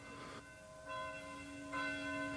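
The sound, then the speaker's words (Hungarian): Church bells ringing, quiet and sustained, with long humming partials; fresh strikes swell the sound roughly every second. “És akkor megkondultak a harangok.”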